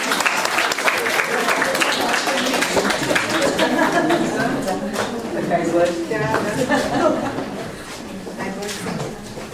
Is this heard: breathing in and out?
no